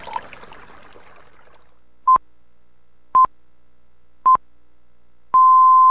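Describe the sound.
Hourly time signal at nine o'clock on the Sky 89.4 radio station: three short, clean beeps at one steady pitch about a second apart, followed by a longer sustained beep at the same pitch.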